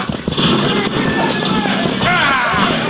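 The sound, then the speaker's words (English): Horses' hooves pound as a team of horses runs, a dense, continuous rumble of hoofbeats mixed with loud voices shouting over it. “bring those horses to a halt”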